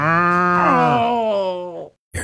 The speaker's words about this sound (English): I think this cow likes me.